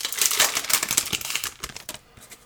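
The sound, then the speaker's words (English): A 2022 Bowman Platinum baseball trading card pack is torn open with rapid, loud crinkling and ripping that thins into a few scattered crackles toward the end. “It says 2022 Bowman Platinum. Four trading cards, Major League Baseball symbol down there. Let's open this up. Four cards in each pack. We're going to do four packs.”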